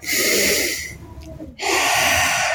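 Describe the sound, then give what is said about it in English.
A deep breath taken during a stretching exercise: a loud, airy rush of breath that softens and thins for a moment midway, then returns just as strongly for the final second. “Let's take one breath here.”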